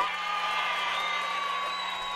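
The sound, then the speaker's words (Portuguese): A person imitates a roar live on radio, a sustained, drawn-out vocal howl that holds steady for about two seconds over a faint constant hum. “Faz o rugido, faz o rugido pra encerrar.”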